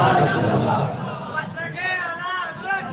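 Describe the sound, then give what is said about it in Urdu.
A crowd chanting a loud slogan together, a dense, rousing mass of voices that stays forceful throughout, with one sustained call rising out of it in the second half. “یہ نعرہ ہے زوردار”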